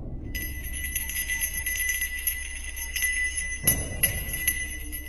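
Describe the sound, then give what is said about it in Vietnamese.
A bell rings with a bright, sustained metallic tone and shimmering high overtones, then is struck again shortly before the end and keeps ringing, with no voices. “Là cái chuông này nó kêu, có nghĩa là đáng sợ rồi.”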